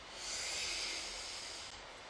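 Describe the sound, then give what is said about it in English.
A person takes a long, deep breath: a soft, steady, airy hiss that swells quickly and holds for about two seconds, alone and fairly quiet. “I am going to introduce these cards after I take a deep breath.”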